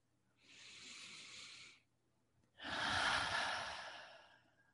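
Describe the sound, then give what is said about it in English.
Deep breathing during a guided relaxation exercise: two long, airy breaths with no talking, a steady in-breath followed after a short pause by a louder, longer out-breath that ends in a soft sigh. “And we'll begin by taking a few deep breaths together.”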